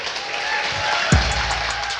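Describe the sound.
A church audience applauds to welcome the youth pastor onto the stage, producing a dense, steady wash of clapping that holds at an even level for about two seconds, with a brief low thump near the middle.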